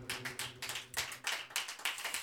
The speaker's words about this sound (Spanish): Démele palmas al Señor si usted sigue confiando.